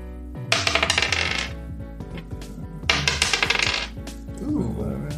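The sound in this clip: Two ten-sided dice rolling during a tabletop role-playing game, heard as two separate bursts of rapid, bright clattering ticks, each lasting about a second, with quieter stretches around them.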